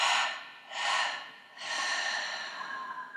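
Deep breathing during a guided breathing exercise: three slow, airy breaths, the last one drawn out longest, quiet and alone with no talk.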